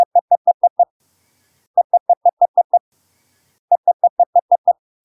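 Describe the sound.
Morse code error prosign: three bursts of rapid, evenly spaced dots, each burst six or seven dots long, sounded as a clean steady mid-pitched tone with silent gaps between bursts.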